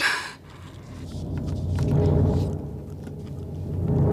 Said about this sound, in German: Das Gewitter kommt näher. Das Haus wird zerfallen unter dem Donner.